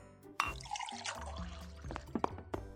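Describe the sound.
Water being poured: a soft, uneven trickle with small splashes and a few sharper drips and clinks, fairly quiet. No one speaks.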